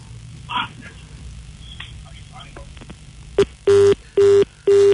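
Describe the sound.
A telephone line tone on an incoming call to a radio show: a brief blip followed by three evenly spaced, steady mid-pitched beeps, loud against a quieter background of faint noises.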